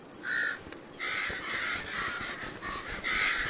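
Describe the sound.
Harsh cawing from a parent crow circling overhead in defence of its young: a rapid, almost unbroken series of loud, raspy calls.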